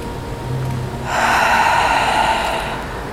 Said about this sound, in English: And release it with an audible. Let's do that two more times. Big inhale.